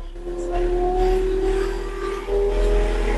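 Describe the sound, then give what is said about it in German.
A vehicle drives off after its gas pedal is lightly tapped. A steady engine drone builds and holds, swelling again toward the end. “Wenn du jetzt das rechte Gaspedal leicht antippst, dann sollte er losfahren.”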